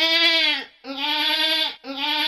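A sick goat bleats loudly: two long, wavering, nasal bleats, each sagging in pitch at its end, followed by the start of a third that is cut off.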